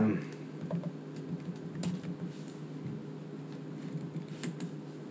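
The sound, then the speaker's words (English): A computer keyboard being typed on to search for a grandpa computer meme, with light, scattered key clicks over a steady low hum. “so I just typed grandpa computer meme”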